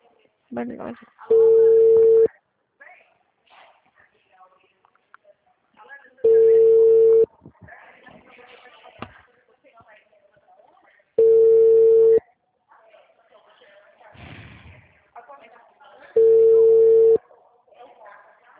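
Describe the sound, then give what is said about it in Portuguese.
Telephone ringback tone while placing a call: four steady, one-second tones at even intervals of about five seconds, with people talking in the gaps between them. “Olha, vou ligar de novo, tá? Não atendeu. Vou ligar.”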